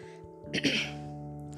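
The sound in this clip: A single short cough or throat-clearing burst rises from a low, steady tonal drone and dies away within a fraction of a second, followed by no further sounds.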